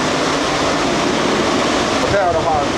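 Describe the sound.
An air shower at the entrance to a Daxing airline-catering food production workshop blows dust off a person with a loud, steady rushing blast of air. A brief voice comes in near the end.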